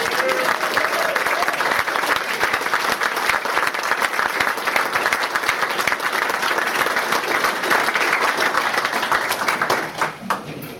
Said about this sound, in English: Let's give him a big hand and welcome.